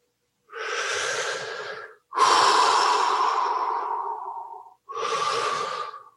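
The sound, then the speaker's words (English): Deep breathing in and out through the mouth during a guided breathing exercise: three long, airy breaths, the middle one the longest and strongest, each separated by a brief silence. “for this exercise, we're going to be breathing in and out through the mouth and starting to deepen the breath.”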